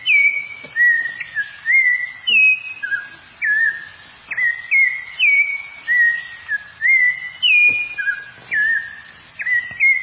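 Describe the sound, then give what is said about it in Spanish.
Clear, flute-like whistled song of a wild Colombian bird: many short, bright phrases repeated in a steady rhythm, each a quick rising and falling whistle separated by brief pauses. “Es por este sonido tan bonito que en varios lugares de Colombia esta vez toma y es objeto de tráfico de especies y puesta en cautiverio en jaulas”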